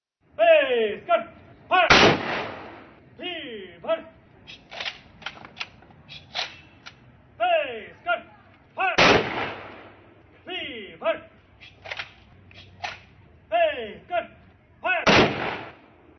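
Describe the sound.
Manipur Rifles personnel fire a gun salute at a ceremony in Imphal. Three loud, sharp rifle volleys are spaced several seconds apart, with recurring falling tonal sounds between them.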